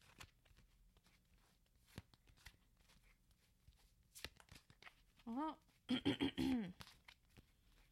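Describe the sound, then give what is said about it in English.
A deck of cards is shuffled by hand in a few faint, brief riffling bursts over a quiet background, with a person briefly speaking near the end. “I'm just going to shuffle the cards.”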